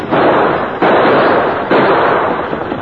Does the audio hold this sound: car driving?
no